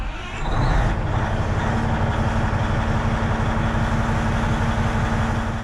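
A 100-tonne quarry machine's engine starts its maiden run into a quarry pit, rising quickly to a loud, steady, deep drone with a constant low hum and no break.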